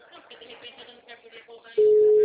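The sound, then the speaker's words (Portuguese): Speech gives way to a steady phone-line tone after a dropped call, which sounds loud and unbroken through to the end. “caiu a ligação”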